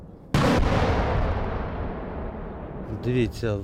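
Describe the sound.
A single loud artillery blast as cluster munitions are fired from forests in Ukraine, a sharp concussive onset followed by a long, rolling rumble that slowly fades, with a voice starting near the end.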